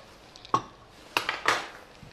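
Ceramic serving bowls and a hot cooking utensil knock and clatter as they are moved aside on a kitchen counter: a few sharp, bright clinks and thuds separated by short quiet gaps, with no talking.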